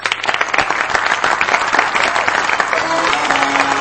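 Audience applause welcomes a performer onto the stage at a show with a house orchestra: a dense, steady wash of many hands clapping, holding at an even loudness from start to finish.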